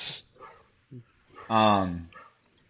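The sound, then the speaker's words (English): A dog barks: a few short, soft yips come first, then one long, loud, harmonic bark that gradually trails off. “if you could hear that barking, that's That's Jake.”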